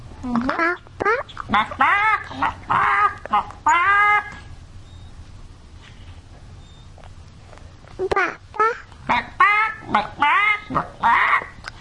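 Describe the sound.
Chicken-like clucking and squawking calls in two busy runs of many short, honking bursts, separated by a quiet stretch of several seconds in the middle.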